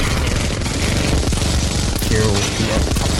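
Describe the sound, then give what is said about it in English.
An atomic bomb sound effect roars loudly and continuously, a dense blast with crackling, rumbling texture and no pause throughout. “Girl, the atomic bomb sound effect. Nice. All right, is it going? Is it happening? Yeah, no, the atomic bomb has been dropped.”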